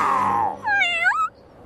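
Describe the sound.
Kittens meowing in a cartoon: two meows, the first low, broad and falling away, the second a higher, clear meow that arches up and back down.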